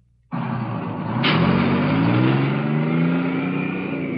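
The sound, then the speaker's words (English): A bus carrying draftees drives along U.S. Highway 1 in southern New Jersey. Its engine drone starts abruptly, builds and then holds as a steady, loud roar, with the pitch slowly climbing. “You are in a busload of civilian draftees, headed down U.S. Highway No. 1 in southern New Jersey.”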